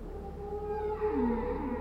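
Whale vocalizations: long, tonal moaning calls that overlap, with one call sliding downward in pitch, heard alone against a low, steady background.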